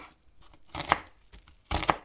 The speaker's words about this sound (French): L'oignon, on coupe comment euh, Moi, je vais le détailler en tout petits morceaux.